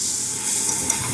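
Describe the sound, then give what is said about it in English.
Danbing, a Taiwanese egg crepe made with egg and wheat flour dough, sizzles on a hot griddle in a continuous, bright hiss with a couple of faint pops. “A lot of customers order danbing. Why don't I make you one? First, an egg. Then, wheat flour dough.”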